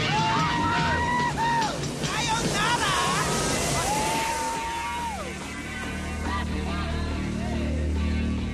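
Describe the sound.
A boat with guns on deck powers through waves past a raft, giving a continuous rush of churning water and wind, with pitched music-like tones and possible voices layered over it.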